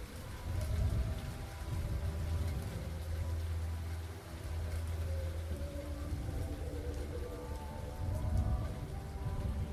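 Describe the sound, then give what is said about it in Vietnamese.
Rain patters down in a faint, dense, continuous hiss of drops that swells and eases slightly but never stops. “Sau đó tất cả bầu trời tối đen lại, nhưng hạt mưa cũng bắt đầu tí tách rơi.”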